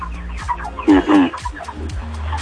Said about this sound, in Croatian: Pozdravite kokice, čuju se u pozadnju.